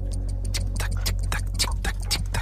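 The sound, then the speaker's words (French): A clock ticks in a steady run of many sharp, evenly spaced ticks over a constant low hum. “Une montre, une horloge.”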